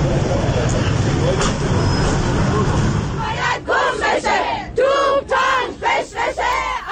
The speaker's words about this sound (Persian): این هم صدای زنان هستش که در اتوبوس‌های شهری شعار میدن و اعلام اعتراض میکنن